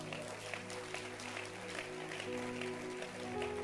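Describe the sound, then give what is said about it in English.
An audience claps hands during a Resurrection Sunday church service. The clapping is faint but continuous and keeps a fairly even level throughout. “Clap your hands.”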